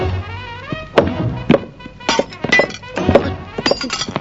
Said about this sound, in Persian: باید تعمیرش کنم، برم چکاش و بقیه وسایل تعمیراتم رو بیارم.